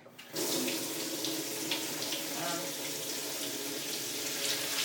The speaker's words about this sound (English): going to rinse these things now.